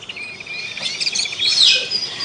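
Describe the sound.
Small birds chirp outdoors in a quick, bright, high-pitched stream of many overlapping tweets. The calls hold a fairly steady moderate level and swell slightly toward the end, with no voices.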